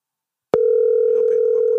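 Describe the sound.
A steady telephone line tone sounds as a call rings unanswered before going to voicemail. Half a second of silence comes first, then a single unbroken mid-pitched tone holds to the end.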